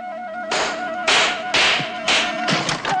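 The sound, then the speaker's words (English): A toy cap gun fired into a donkey's ear: several sharp, bright cracks in quick irregular succession, each with a brief noisy tail, over a faint tonal background. “He then goes to the donkey and shoots his cap gun in its ear.”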